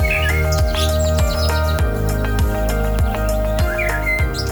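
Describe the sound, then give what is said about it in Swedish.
Birds chirp and tweet in a kitchen garden, their bright, scattered calls sitting over a loud, low, pulsing drone that throbs in a regular rhythm throughout. “Mysigt att höra humlesurret och fågelkvitter och en och annan fluga också.”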